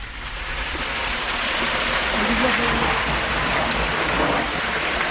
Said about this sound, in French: Donc c'est l'eau de la galerie qui vient alimenter un des réservoirs à peu près à 1 km de cette même galerie. Et l'eau coule uniquement grâce au dénivelé du réseau.